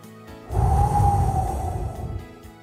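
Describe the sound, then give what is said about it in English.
A deep breath drawn before a prayer: one long, steady inhale of about two seconds that swells and then fades, with a soft sustained tone underneath. “Let's take a deep breath and have a prayer.”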